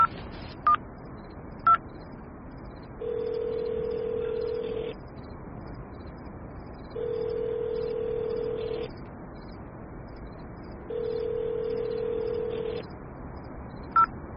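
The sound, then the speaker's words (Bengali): A mobile phone is dialled: a few quick keypad beeps, then three long, steady ringback tones separated by even pauses, with the ringing going unanswered. “মোবাইলটা বের করে অভিককে phone লাগালো।”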